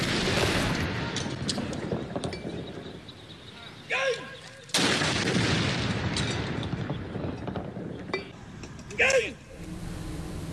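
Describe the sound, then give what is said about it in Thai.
A royal artillery gun salute fired at the Air Force aviation park in Sai Mai, Bangkok, during royal funeral rites: a few heavy, separate booms ring out, spaced seconds apart, under a voice talking steadily. “ยิงสลุดหลวงณอุทยานการบินกองทัพอากาศเขตสายไหมกรุงเทพมหานคร”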